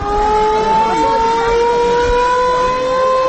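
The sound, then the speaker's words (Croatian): Wartime civil defense sirens sound the general danger alarm at a commemoration on the old bridge over the Neretva river, a loud sustained wail of layered tones slowly climbing in pitch over a low rumble. “uz zvuke ratnih sirena za oglašavanje opće opasnosti”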